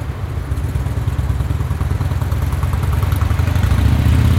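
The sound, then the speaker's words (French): Motorbike engines rumble through a city crossroads in a continuous low, throbbing drone with clattering texture that grows slightly louder over the few seconds. “Même sans casque, les deux roues restent quand même une émergence sonore du carrefour.”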